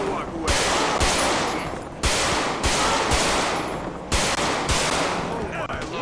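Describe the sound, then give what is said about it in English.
Loud bursts of automatic gunfire ring out during a police shootout in a video game, with many sharp shots packed into repeated volleys that recur every second or so throughout. “One of them has a gun! One has a gun! Put the gun down! Gun's drawn, gun's drawn. Shoot. I got one down.”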